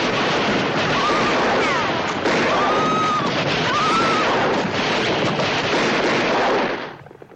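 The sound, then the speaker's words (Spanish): Gunfire in a western shootout from a 1973 film: dense, continuous crackling volleys with several whining ricochets, loud and steady until it cuts off near the end. “De pronto, Lane descubre a su izquierda otro grupo de hombres a los cuales dispara también.”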